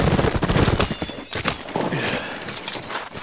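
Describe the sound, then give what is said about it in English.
Cavalry horses ride up with loud, rapid clip-clop of many hooves in a dense, uneven rhythm, and a horse whinnies over the hoofbeats. “The men from the valley and the cavalrymen rode up.”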